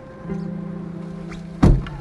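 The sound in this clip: A car's back door closes with one solid, heavy thunk near the end. Before it, a steady low tonal hum drones on, and no one speaks.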